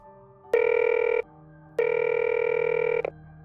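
A telephone rings twice in two long, steady electronic bursts separated by a short pause. The call is placed to a shop owner. No voices are heard.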